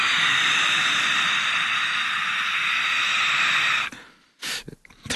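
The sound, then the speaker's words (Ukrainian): A voice imitates a beast-man's heavy sniffing breath, one long loud breathy hiss that holds steady for several seconds, then breaks off into a few short, sharp snorting bursts. “Я грав навіть людину-звіра, який відчуває світ нюхом, зором, і він дихав так.”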